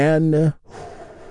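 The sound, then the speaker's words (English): A deep inhaled breath during a guided meditation: after a short spoken phrase and a brief pause, a long, soft, airy intake of breath fills the rest of the moment at a moderate level. “We begin by taking a big, deep, healing breath right now. Here we go,”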